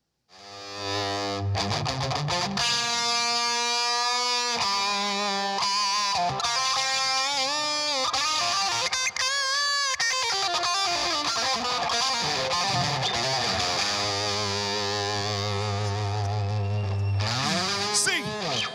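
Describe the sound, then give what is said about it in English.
Heavily distorted electric guitar played during a church service: loud, sustained, continuous lines with sliding and bending notes that run unbroken for nearly 19 seconds. “I know they didn't have electric guitar in Babylon, but if they did, I think it'd sound something like this over here.”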